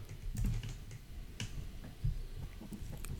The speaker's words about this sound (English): I'm going to type my letter here to you.